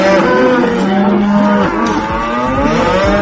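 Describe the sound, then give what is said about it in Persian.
Cows mooing loudly, with several drawn-out, tonal calls overlapping one another throughout. Some of the later moos bend downward in pitch. “بفرمایید لطفاً اعتراض گاوا رو به سیاست‌های اقتصادی گوش کنید”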